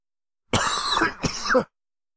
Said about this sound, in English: Yeah, this cough is horrible, and it's killing me.